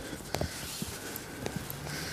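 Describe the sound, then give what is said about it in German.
Footsteps walking down stone steps during a village walk: a few soft scuffing steps over a steady outdoor background hiss. “Jetzt gehe ich hier die Stufen runter.”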